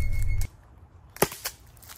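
A self-defense gun fired at the ground gives a single sharp crack, heard alone after a short burst of low rumbling noise, with a fainter click following the shot.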